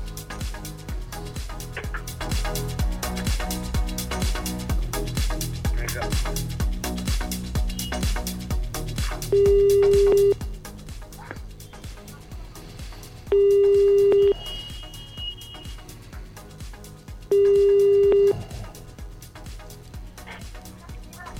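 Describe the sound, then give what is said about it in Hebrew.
Telephone ringing tone as a radio host places a call to a listener: three steady, mid-pitched tone bursts, evenly spaced about four seconds apart, over a constant background bed. “אוקיי, בואו נתקשר.”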